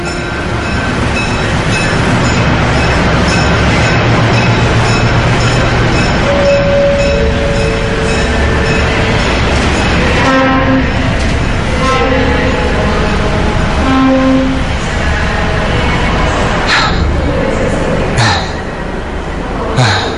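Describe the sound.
A train runs on the line from Bandung Timur station toward Bandung city station in the morning, with a loud, steady rumble and rattle throughout. Brief high squealing tones appear now and then near the middle.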